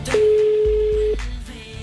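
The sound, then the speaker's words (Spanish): A single steady telephone tone sounds for about a second while a call is placed to a number, with a few low thumps underneath and no talk. “Estamos llamando, hay un número diferente al de la emisora”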